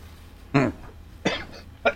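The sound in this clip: A person coughs three times to clear a frog in the throat, short throaty bursts spaced apart over a quiet background, the first one the strongest.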